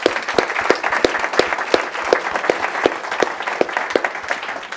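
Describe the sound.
Audience applause after a panel discussion: dense, even clapping from many hands, with sharp individual claps standing out, carrying on at a steady level for about five seconds.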